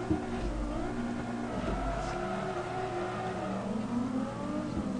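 Car engine of a '69 Charger revving in a racing video game, a steady harmonic engine drone that holds for about five seconds with no talking.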